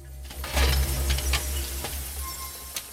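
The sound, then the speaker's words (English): A trolley clatters down tarmac, making a rolling low rumble with scattered metallic clinks and rattles. It is loudest early on, then eases off, with a sharp knock near the end. “The trolley clatters down the tarmac.”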